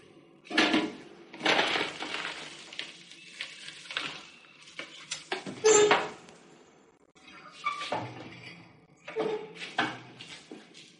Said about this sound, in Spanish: Buscan los armaritos.